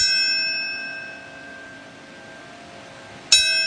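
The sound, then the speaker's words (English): Bells ringing at a ceremony: a struck bell tone hangs and slowly fades, then a second sharp strike rings out near the end with bright, lingering overtones. “We have sounds from today. What comes to mind when you hear those bells?”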